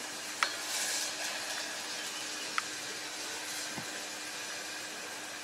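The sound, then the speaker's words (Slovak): Onion frying in oil gives a steady, soft sizzle with a few faint clicks and ticks over it. “Orestovanú cibuľku.”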